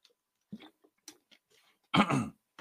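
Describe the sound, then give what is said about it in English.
Someone clears their throat with a few small, dry rasps, then one louder, gravelly burst near the end, with quiet gaps between. “Sorry about that. Got something stuck in my throat there.”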